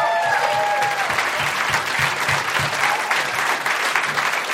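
Audience applause at a Minneapolis comedy show as a comedian is introduced: dense, steady clapping that stays loud throughout without a pause.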